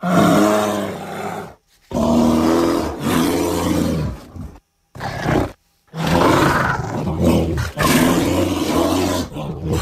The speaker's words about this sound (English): Well, that's the affecting sound of bears stuffing themselves.